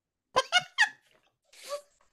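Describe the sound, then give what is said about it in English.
Squeaky creaking of a door opened by its knob during a tabletop role-playing game: three short, bright squeals in quick succession, then a softer, airy rasp after a brief pause. “I am going to put my hand on the knob and open this very real door.”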